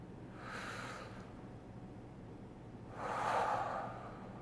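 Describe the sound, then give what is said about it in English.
A deep breath drawn in, soft and airy. A faint first breath is followed by a longer, stronger inhale near the end, with no talking. “Everybody watching, or if you're listening later, still breathe in here with me. Ready? One, two, three.”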